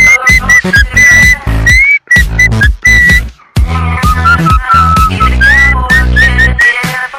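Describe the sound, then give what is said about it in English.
A whistled tune plays loud and clear over a music track with heavy bass and beats. The melody is bright and high, with short sliding notes repeated in phrases. The backing drops out briefly a few times. “Kinda like that whistling song.”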